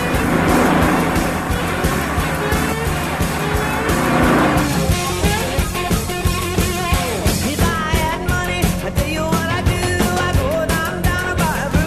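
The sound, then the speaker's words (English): A car engine roars loudly as the driver accelerates away from a following vehicle. The dense, continuous noise has shifting tones that grow busier and more agitated in the second half. “Why don't you let that car behind you pass us? We're in no hurry. I'm always in a hurry, honey. Always in a hurry. Watch me make this baby walk away from him.”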